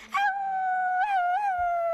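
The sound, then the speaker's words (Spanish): A person's voice imitates a werewolf howling at the moon: one sustained, tonal howl that swoops up at the start, wavers a couple of times in the middle, then slowly sinks in pitch. “¿Y cómo es el rugido del hombre lobo a la luna?”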